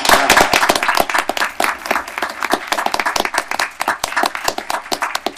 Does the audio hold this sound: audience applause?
yes